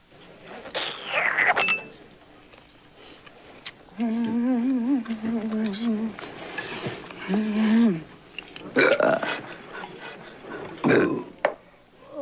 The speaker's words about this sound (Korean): 그녀가 소리내어 먹으면 그는 트림으로 대답합니다.